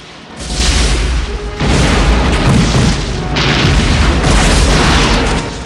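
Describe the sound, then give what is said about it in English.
Explosions erupt around an oil plant, a loud, continuous roar of deep booms that surges in a few overlapping waves and stays dense throughout. “Explosions are happening all around the oil plant.”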